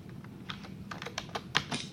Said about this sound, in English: I'm going to type comma VBM space.